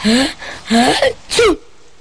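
Three sharp sneezes in quick succession from a grandfather. Each is a loud, short, voiced burst, with a short pause between them and silence after the last.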